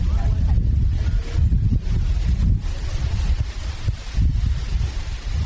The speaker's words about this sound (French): Sous les palmiers à huile, le vent souffle.